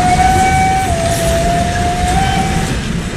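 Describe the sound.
A train's steam whistle blows one long, steady note that dips slightly in pitch partway through. It sounds over loud, constant rumbling train noise and cuts off shortly before the end.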